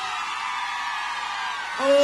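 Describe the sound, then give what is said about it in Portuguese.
Women in the audience scream at a concert in Goiânia, Brazil, a dense, sustained high-pitched roar of many voices that swells louder near the end. “Olha, Goiânia. Cadê o grito das mulheres apaixonadas?”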